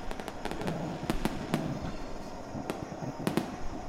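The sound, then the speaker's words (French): Fireworks explode in many sharp, crackling bursts, scattered irregularly over a low rumbling background, some arriving in quick clusters. “Au bout d'une heure, le corps explose, selon la couleur choisie par le défunt. Les couleurs du feu d'artifice s'élancent dans le vide de l'espace. S'éloignent et s'éteignent.”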